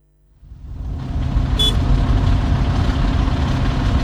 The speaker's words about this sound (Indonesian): pakai acara macet segala lagi nih kota